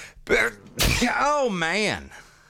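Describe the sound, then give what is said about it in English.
One sneeze: a short breathy intake, then a sharp, loud burst, followed by a drawn-out vocal sound whose pitch wavers up and down. “I just sneezed.”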